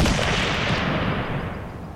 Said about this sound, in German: Dann fällt ein Schuss.